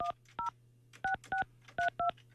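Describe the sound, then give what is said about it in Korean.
Touch-tone keypad beeps dial a phone number to call a contestant on a call-in quiz: six short, bright two-note tones in uneven groups over a steady low hum, with no talk. “자 다시 8580번 8580번님께 전화합니다.”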